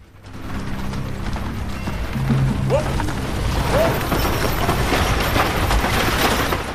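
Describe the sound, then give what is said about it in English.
Horse-drawn wagon rolling through a dirt wash in the Arizona Territory of 1901, hooves clopping amid a continuous rattling, clattering rumble of wheels and mechanism that holds steady throughout. “The wagon rolls past low dirt banks on either side.”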